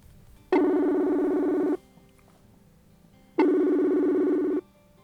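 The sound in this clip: Ringback tone of an outgoing telephone call: two steady, buzzy mid-pitched tone bursts of about a second each, separated by a longer silent pause, with no voices.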